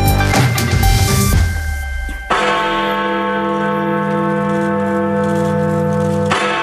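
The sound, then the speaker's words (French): A large clock tower bell in London tolls with loud, deep strikes. Each strike leaves a long, rich ringing hum that sustains between them. A dense clang of overtones opens the passage before the bell settles into its resonant tone. “Et voilà, Big Ben qui sonne le glas.”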